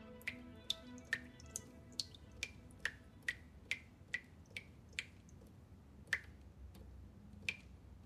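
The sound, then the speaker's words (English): Water drips steadily from an angular tap, producing many sharp, bright plinks at a fairly even rhythm against a quiet background. “An angular tap drips.”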